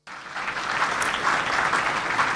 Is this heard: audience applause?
yes